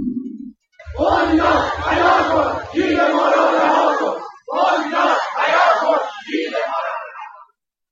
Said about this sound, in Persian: در همین روز متقاضیان پروژه 624 واحدی مسکن در لاکان رشت مقابل اداره کل بنیاد مسکن رژیم در گیلان دست به اعتراض زدند.